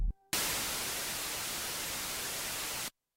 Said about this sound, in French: Voilà, on va tout enlever. Hop, poussière, les modulations, les filtres, lampe, on le garde. Et normalement, ça nous fait un bruit blanc ici.